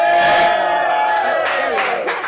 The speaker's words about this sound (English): Make some more noise for her. I need to hear some noise, y'all. Make some noise for her one time, everybody.